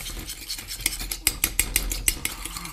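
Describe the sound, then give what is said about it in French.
A mustard, salt and white wine vinegar dressing is stirred, giving a quick, regular run of soft scrapes and light clinks that grows more distinct midway, with no voices. “On y ajoute la moutarde, voilà. Et puis là, on va y mettre 2 cuillères à soupe de vinaigre de vin blanc. OK. Oh, puis on tourne.”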